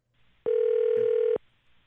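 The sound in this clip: A telephone ring as a call goes out: one flat, steady electronic tone lasting about a second, loud and alone against near silence.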